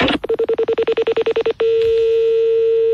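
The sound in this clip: A telephone number being dialed: a rapid run of many short, even beeps at one pitch, then a steady continuous tone that holds to the end.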